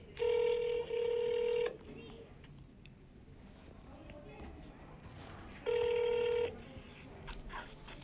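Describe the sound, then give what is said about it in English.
Telephone ringback tone from an outgoing call, heard as two steady buzzing bursts a few seconds apart, the first broken by a brief gap, over low background noise. “Let's get on the phone. We're gonna call uh, our first caller.”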